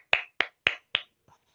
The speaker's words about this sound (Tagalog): Palakpakan natin ang ating mga sarili!